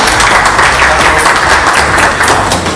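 Loud, sustained applause from a crowd of many people clapping, dense and steady with no break, fading a little at the very end.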